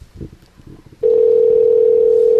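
A telephone being dialed for a prank call: after a few faint low sounds, a loud, steady dial tone starts abruptly and holds unbroken at one pitch.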